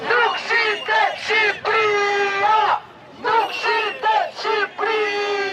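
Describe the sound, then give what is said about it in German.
Protesters chant during an evening march on the seat of Albania's government. The crowd shouts a repeated phrase in loud, rhythmic bursts with brief gaps between them, the massed voices strong and harmonic. “Albanien ist nicht zu verkaufen, rufen die Demonstranten.”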